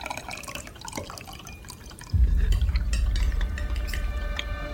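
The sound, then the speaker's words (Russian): Liquid poured from a carafe into a wine glass, with light trickling and dripping at first, then a fuller, louder, steady low flow from about midway to the end. “Полина заносит графин на подносе. Наливает в Димин фужер.”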